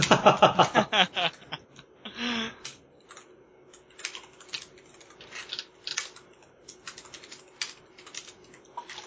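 Fingers type on a computer keyboard with irregular clicking keystrokes. A quick flurry of taps comes first, then scattered, fainter key presses with pauses between them.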